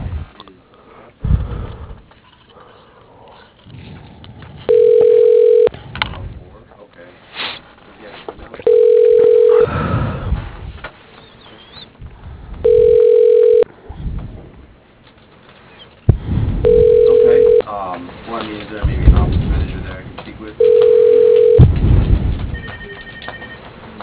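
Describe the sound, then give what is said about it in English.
A telephone rings five times in an even rhythm, each ring a steady mid-pitched tone heard over a narrow phone line, while the call is transferred to voicemail. Voices talk between the rings. “Let me put you through to Sylvia's voicemail.”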